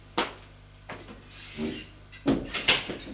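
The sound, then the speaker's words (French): A few spaced, hollow knocks on a bedroom door, followed by a louder cluster of wooden door and movement sounds. “Frappe. Et entre.”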